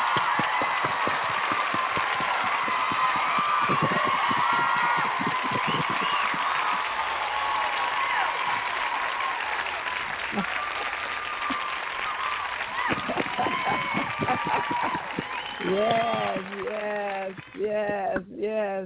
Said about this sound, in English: So let's put our hands together and welcome them.